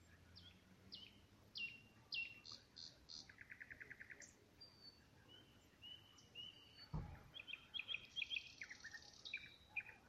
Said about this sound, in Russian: Закончились лягушачьи концерты, начались соловьиные, наверное, что ли. Что это за птица? За нашим парком.